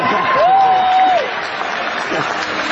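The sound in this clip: Audience applause from a crowd, a steady, dense clatter of many hands clapping at an even level for the whole stretch, with a thin sustained tone briefly riding over it early on.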